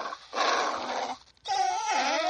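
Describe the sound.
A person imitates a growl, voicing two drawn-out, throaty vocal bursts separated by a brief pause, the second one wavering in pitch.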